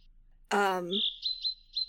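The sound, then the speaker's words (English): Bird call of four short, high chirps in a quick, uneven series, just after a brief voice sound. “you do hear that this bird seems to make the same kind of bird call as Ravdur did.”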